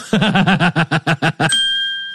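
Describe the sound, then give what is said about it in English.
A bell sound effect: a quick run of short, bright pulsed tones, then a single clear ring that holds and slowly fades out. “That deserves a bell”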